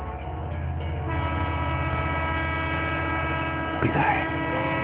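A train passes on a railway line with a steady, droning rumble and a sustained tonal whine running through it, and a brief louder burst near the end.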